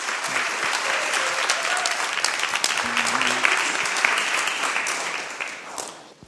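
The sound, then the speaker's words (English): An audience applauds to welcome a speaker to the front, a full, even wash of many hands clapping that holds steady and then fades out at the end. “So put your hands together and welcome Holly.”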